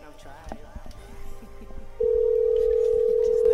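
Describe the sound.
A telephone line tone sounds as a call rings through: a steady single-pitch tone starts midway and holds unbroken to the end, after a stretch of quiet, scattered sounds and some faint talk.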